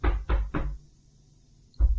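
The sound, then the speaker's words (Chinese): Knocking on a door: three firm, low thuds in a quick, even rhythm, a pause, then the knocking starts again at the end. “有人在敲门呢，会被发现的。”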